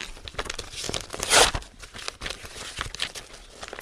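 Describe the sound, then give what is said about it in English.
A paper script is torn up by hand, with rapid crackling rips and crinkles and one louder tear near the middle. “First though, I'm going to tear up my script.”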